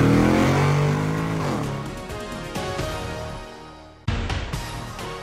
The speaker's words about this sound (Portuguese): Engata primeira e acelera!